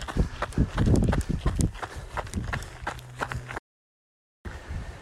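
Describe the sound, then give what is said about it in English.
Footsteps climbing up very steep steps, a busy run of quick, scuffing treads at moderate loudness that thin out, then a short silent gap before steps resume. “climbing up some very uh, steep steps”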